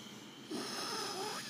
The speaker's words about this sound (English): Take a deep breath in.